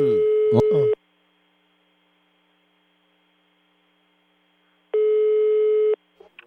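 A telephone ringback tone plays while a call waits to be answered. Two steady, mid-pitched tones each last about a second, with roughly four seconds of silence between them, and a short noisy burst comes at the very start.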